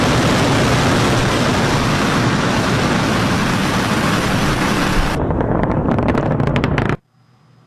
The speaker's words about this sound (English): You may recall back in January, SpaceX launched a rocket without a hitch.